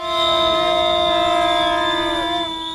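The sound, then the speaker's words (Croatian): Whistles and trumpets blaring at a peaceful street protest march by striking health workers, a steady, loud, sustained chord of high tones held for almost three seconds, with no voices. “Uz zvuke pištaljki i truba, nekoliko desetina zdravstvenih radnika iz više ustanova u HN kantonu nakon jutrošnjeg stupanja u generalni štrajk, prije podne su održali mirnu protestnu šetnju”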